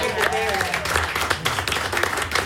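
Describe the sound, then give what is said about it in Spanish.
Audience applause for gaita folk performers in Maracaibo, a dense patter of clapping with a voice speaking over it early on. “Así que bueno, un aplauso para ustedes.”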